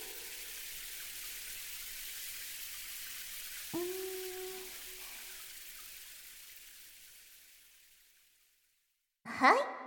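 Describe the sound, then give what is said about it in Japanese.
Running water rinses someone during a bath, a steady, bright hiss that slowly tapers off to silence, followed by a brief splashing burst at the very end. “それじゃあまた洗い流しますからね。”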